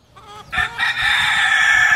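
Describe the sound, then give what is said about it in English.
Chickens in a backyard in northern Philadelphia. After a few soft clucks, a rooster breaks into a loud, sustained crow that carries on to the end. “Luis Martinez fixes his motorcycle in his backyard in northern Philadelphia on a Friday afternoon. Chickens roam freely around him.”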